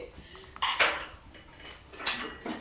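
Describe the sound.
Bowls clink and clatter as they are handled and set down, with a few sharp knocks separated by quieter scraping and rattling; no voices.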